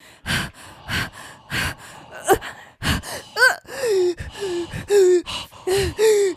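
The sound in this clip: Many exaggerated gasping, wheezing breaths from someone worn out after a long uphill hike. Short ragged inhales alternate with higher, voiced whining wheezes in a fast uneven rhythm, with no words.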